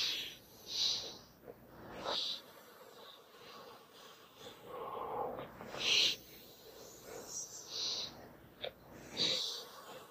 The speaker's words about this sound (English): The next thing that I'm going to do is take 3 deep breaths.